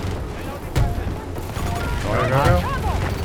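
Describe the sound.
Gunfire in a video game, with the player cycling weapons such as a 40 millimeter volley gun and a rocket launcher. A couple of sharp, moderately loud bursts stand out against a busy, rumbling background.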